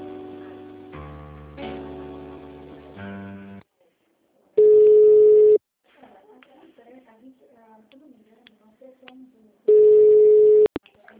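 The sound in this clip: Telephone line tones during a call transfer to a human resources department: a run of stepped electronic tones, then two long, steady ringing tones separated by a pause filled with faint clicks and knocks.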